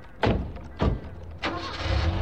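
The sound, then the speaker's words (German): Car doors thud shut three times at a steady pace, then an engine rumbles and holds steady as the car pulls out of a yard, with no voices. “Sie gingen mit Pasewald zu ihrem Wagen und fuhren vom Hof.”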